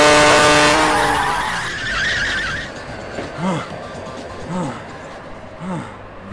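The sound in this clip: Car skidding, tires squealing in a loud, high, sustained screech that fades after about two seconds. Quieter, uneven rumbling follows to the end.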